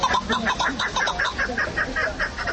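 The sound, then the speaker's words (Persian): A chukar partridge, a bird prized in Tajikistan and kept for fighting and hunting, calls loudly in a steady run of many rhythmic, clucking notes, with no voices over it. “این صدای کپک یکی از پرنده‌های خوشخوان و خیلی دوست داشتنی مردم تاجیک است.”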